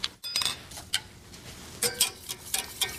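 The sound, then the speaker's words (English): Whisk clicking against a bowl as it mixes a sauce with maple syrup: many quick, light metallic ticks and taps in an uneven rhythm, fairly faint and with no voices. “I got my maple syrup going in. Okay. I think I'm going to use my whisk right now.”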